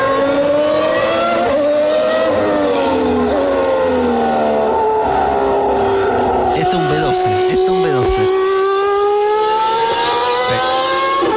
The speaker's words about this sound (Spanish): Sí, es un V12, ¿eh? Es V12.